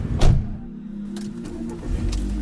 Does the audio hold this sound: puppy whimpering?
no